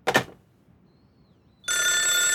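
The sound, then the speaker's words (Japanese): A telephone bell starts ringing after a short, sharp knock and a near-silent pause. The bright, metallic, sustained ring then continues loudly and unbroken to the end. “あ、電話。”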